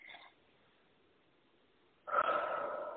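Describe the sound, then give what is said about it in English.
A single deep breath is drawn in after a near-silent pause, heard as a loud, airy rush that begins abruptly and is sustained to the end, following a faint brief breath at the start. “Take time to breathe out, okay? Take a deep breath in”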